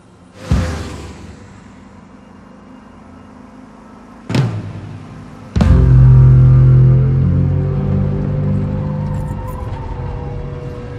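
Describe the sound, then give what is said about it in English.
Car speeding down a rural highway: three sharp thumps, then a loud, steady engine roar that slowly eases off. “They speed down a rural highway.”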